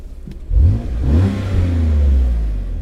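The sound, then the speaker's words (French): A car engine revs with its exhaust valve closed. A deep, throaty roar swells up under a blip of throttle and then holds steady, loud and low, with a slight wavering rumble. “Et en gros, là, on peut mettre des petits coups de gaz. Hein. Vas-y. Donc là, j'ai valve fermée.”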